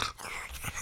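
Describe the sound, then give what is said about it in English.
A dog snores, a breed prone to sleep apnea, with a few soft, raspy breaths in quick succession, faint and brief. “Yeah, well, I think anybody who's got a dog knows what that sound is, surely. Yeah, usually it's us and we blame it on the dog. But certain breeds, of course, have this real snoring and sleep apnea.”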